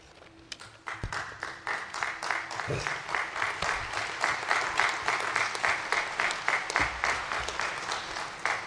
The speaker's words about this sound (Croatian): Neka bude to za majku svetu Terezu i one koji rade kao ona, vaš aplauz.